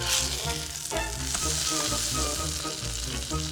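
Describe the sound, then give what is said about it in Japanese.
Egg and milk omelette mixture frying in a pan gives a loud, continuous, even sizzle with a crackling hiss that holds steady throughout, with no talking. “料理は大胆に作らないとね。それじゃあ焼くね。”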